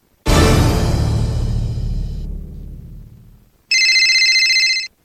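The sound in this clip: A telephone rings before a call. A loud, bright crash fades away over about three seconds, then, after a short silence, one steady, high electronic ring sounds alone for roughly a second.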